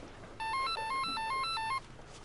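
A telephone rings with an electronic ringtone: a quick melody of bright, stepping beeps that rises and falls in pitch for under two seconds over a faint background.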